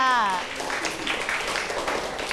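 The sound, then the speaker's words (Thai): Classmates clap for a student who answered a question in class; after a short spoken voice at the start, a scattered patter of hands follows at a moderate level. “โอ้โหเยี่ยมมากๆค่ะปรบมือให้กับเพื่อนค่ะ”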